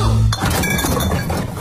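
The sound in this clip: Coins of change clinking together in a short burst of bright metallic chinks that jangle briefly, then settle. No one speaks.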